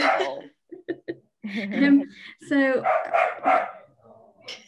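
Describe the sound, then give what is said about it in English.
A pet dog barking in the background at home: a few short, sharp barks mixed in with people talking. “Sorry, that's my dog in the background.”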